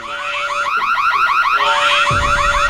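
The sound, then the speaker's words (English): Car-alarm siren used as entrance theme music, with rapid, repeating up-and-down warbling sweeps that cycle steadily and loudly throughout, piercing and electronic, with no voices. “it's basically car alarms with a voiceover going, warning,”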